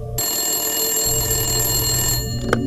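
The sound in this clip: A telephone ringing: one sustained, bright, bell-like ring lasts about two seconds at steady loudness, then cuts off, leaving a short click and quieter hum.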